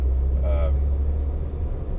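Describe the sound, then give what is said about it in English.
A car driving on a road gives off a steady, low rumbling road and engine noise that stays even and continuous throughout the short stretch. “listen to sort of my voice and the noise of the road and car and everything else,”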